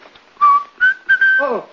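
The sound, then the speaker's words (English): A person whistles a few clear, fairly high tonal phrases, steady in pitch and loud, ending with a quick cluster of falling, chirp-like notes. “Don't whistle in my ear, please.”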